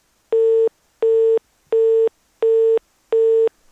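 A telephone line tone follows a dropped call: five identical, evenly spaced beeps, each roughly a third of a second long, at a steady mid pitch, loud and alone, with no voices.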